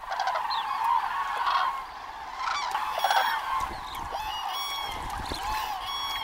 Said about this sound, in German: Kraniche sind Frühstarter. Noch vor Sonnenaufgang fliegen die ersten los und geben damit das Signal, dem alle anderen folgen.